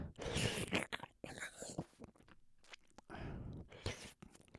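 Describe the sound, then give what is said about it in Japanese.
Wet ASMR ear-licking mouth sounds, many close, soft smacks and slurps arriving in irregular bursts with short pauses between them. “君の耳の形も好きなんだよね。ほら、この耳の 出っ張ったところも美味しい。”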